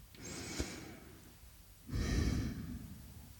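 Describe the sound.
A deep breath in and out. A soft breathy inhale is followed after a short pause by a longer, louder exhale that trails off slowly, with no talking over it.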